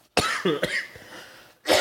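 A few short, dry coughs and throat-clearing sounds from a person with a dry throat, loud bursts separated by brief pauses, with no talking.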